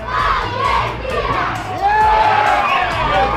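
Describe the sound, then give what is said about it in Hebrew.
A crowd of residents cheers and shouts together after Argentina scores in a tournament match at a candlelit joint viewing, loud and continuous with high excited voices, including children's, rising into chant-like yells. “באור הנר עשרות תושבים התאספו לצפייה משותפת ולחגיגות הניצחון. כתבתנו שקד ויקינסקי שמעה אותם. הנה גול של ארגנטינה.”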